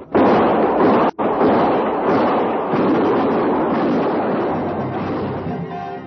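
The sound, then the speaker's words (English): Heavy gunfire in a radio drama forms a loud, dense, continuous roar of shots that carries almost unbroken for several seconds, cut by one brief gap near the start, then fading slightly toward the end. “Quick. I barely see them now. Shoot, and for Lord's sake, don't miss. Shoot!”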